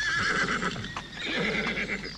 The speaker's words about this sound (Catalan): En aquest prat hi pastaven vaques, hi trotaven cavalls.